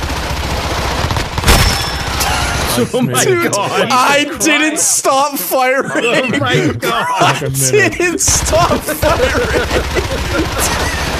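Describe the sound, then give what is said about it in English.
Continuous gunfire in a video game rattles on unbroken, loud and dense throughout, beneath a voice talking and chuckling. “Oh my god, I didn't stop firing! That was going on for so long!”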